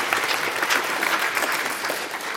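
Audience applause after a church Christmas play, a dense and steady crackle of many hands clapping at a fairly loud, even level.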